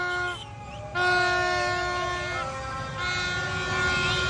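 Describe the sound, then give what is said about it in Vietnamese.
Vehicle horns honk in a street celebration after a Vietnam football win, with motorbikes and cars flying flags. Long overlapping horn blasts hold steady throughout, loud against a noisy background that likely includes voices. “Những tiếng còi, tiếng trống, tiếng hô Việt Nam vô địch nối tiếp nhau không ngừng nghỉ.”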